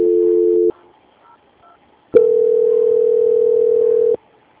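Telephone line tones play while a call is being transferred: a brief steady tone that stops abruptly, a quiet gap with faint sounds, then a loud, even tone lasting about two seconds that ends sharply.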